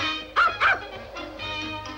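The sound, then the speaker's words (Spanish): A dog barks from inside a sack carried on someone's back across a snowy landscape. There are two short, high, muffled yips close together, then a quieter, steady sound continues. “lleva un saco colgado a la espalda del cual sale un ladrido.”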